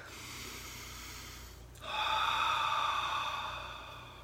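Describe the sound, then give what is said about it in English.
A single deep breath: a soft rush of air swells suddenly and holds, then gradually fades, heard alone without talk after a quieter stretch. “I'm going to take a breath here.”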